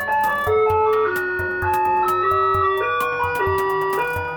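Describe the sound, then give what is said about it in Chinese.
Taiwanese garbage truck music plays as a loud, continuous electronic melody of bright, steady tones, with one note held after another in a simple tune and no talk over it. “是我们台湾的垃圾车的音乐。”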